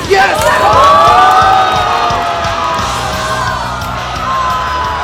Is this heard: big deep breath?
no